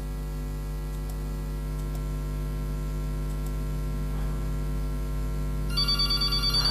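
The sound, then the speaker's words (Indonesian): An incoming WhatsApp call ringtone begins only near the end as pulsed tones over a steady electrical hum that fills the whole clip. Before it starts, there is no talk, only the drone. “mohon maaf ya, WhatsApp-nya kita tidak tahu kenapa nih. Kita terima dulu.”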